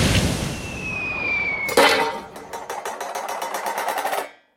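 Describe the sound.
A pressure cooker full of peanut butter and marshmallow fluff explodes in a kitchen: hissing and a falling whistle build, then a sudden loud bang gives way to fast, rattling clatter that cuts off abruptly.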